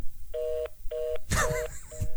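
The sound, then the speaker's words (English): Telephone keypad dialing tones sound while calling an unemployment phone number. There are several short, evenly spaced electronic beeps over a faint background hiss, with a brief noisy burst midway. “that's the sound of the unemployment phone number, and I have been calling it for a week straight.”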